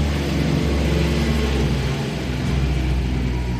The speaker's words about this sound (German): Das war die Müllabfuhr.